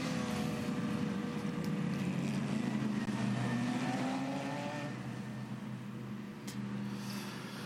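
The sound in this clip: Race car trundling slowly through the pit lane during the Bathurst 12 Hour endurance race: a steady, fairly constant low engine drone with a layered harmonic whine, holding level with no voices over it.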